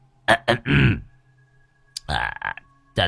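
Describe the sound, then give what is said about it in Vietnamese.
A man clears his throat in a tense, quiet moment: two short rough bursts, then a longer, deeper rasping rumble. A voice speaks briefly after a pause. “Ông hắng giọng.”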